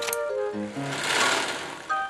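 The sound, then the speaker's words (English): A sewing machine stitching fabric gives a brief whirring run that swells in loudness mid-clip, alongside a short sequence of stepwise falling musical tones. “First she snipped, and then she sewed. Then she snipped again, and sewed some more.”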